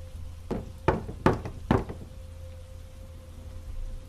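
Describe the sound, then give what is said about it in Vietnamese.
Four loud, clear knocks at night, evenly spaced in a quick rhythm and heard alone over a faint steady hum. “Lại thêm một lần nữa, nhịp gõ vang lên, nhưng lần này to và rõ.”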